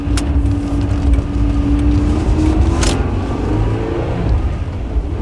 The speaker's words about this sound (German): Bleiben Sie hinter ihm. Wenn ich es Ihnen sage, beschleunigen Sie und setzen sich neben ihn.